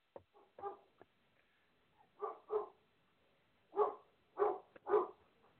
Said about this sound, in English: If you hear a dog barking, just ignore it.